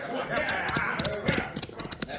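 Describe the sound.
Horses ride off, their hooves clip-clopping in a quick, uneven rhythm of sharp knocks that grows busier toward the end in a Western scene.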